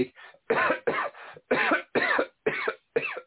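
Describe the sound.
A person coughs in a rapid fit, a run of many short, harsh bursts separated by brief gaps, fairly loud and with no talking around it.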